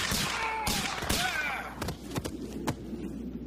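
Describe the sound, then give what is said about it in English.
Gunshots ring out in a Western standoff: several sharp, loud bangs in quick, uneven succession, with a voice heard near the start. “Well, I've had enough of this. Shoot him, Al!”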